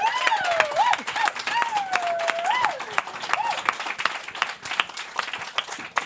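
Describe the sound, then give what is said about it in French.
An audience applauding to welcome a guest: dense, continuous clapping at a steady level throughout, with voices calling out over the first half. “une bonne main d'applaudissements pour Maud Chartier-Paul”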